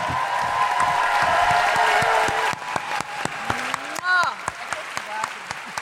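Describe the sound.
An audience applauds and whoops for a guest author. Dense clapping with cheering fills the first couple of seconds, then thins to scattered claps as a voice starts speaking.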